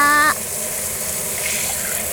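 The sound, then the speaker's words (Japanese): Water poured from above over hair to rinse it at a sink, a steady rushing gush that stays even and fairly loud throughout. “あいにくとうちは美容院じゃないんでね、洗面台で洗おうとするとどうしても上からザーってやるしかないよね。”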